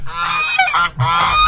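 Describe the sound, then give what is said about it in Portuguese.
Ducks honking as a sound effect, two harsh, nasal honking calls in quick succession, loud and alone with no talk. “medo de pato, acabou que tem medo de pato, olha os patos, cadê os patos pra assustar o Zé”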